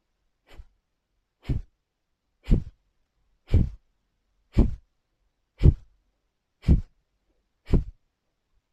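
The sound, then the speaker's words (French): Eight forceful exhalations of Kapalabhati yoga breathing, with passive inhalations between them. Each is a short, sharp puff of breath, evenly spaced at about one per second and of similar loudness, with near silence in between. “Et ensuite, tu prends une belle inspire, peut-être à deux tiers de ta capacité, et tu commences Kapalabhati.”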